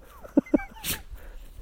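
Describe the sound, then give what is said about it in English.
A dog gives two short, sharp yips in quick succession, followed by a breathy huff, all fairly faint. “My dog isn't going to let me. Go. Stupid animal.”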